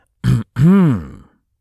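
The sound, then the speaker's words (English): Someone clears their throat in two parts, first a short gruff burst, then after a brief pause a longer voiced rumble whose pitch rises and then falls. “Clear throat significantly.”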